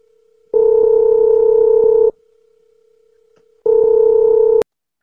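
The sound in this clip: Ringback tone of an outgoing telephone call: two loud, steady electronic tone bursts, the first about one and a half seconds long and the second about a second, separated by a pause filled with a faint low hum.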